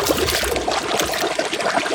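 Water pours into a pot for boiling little potatoes, a steady, dense splashing rush that stays at an even level from start to finish.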